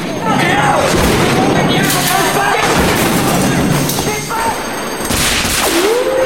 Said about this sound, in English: On the next floor, they find Julian shooting at more coppers.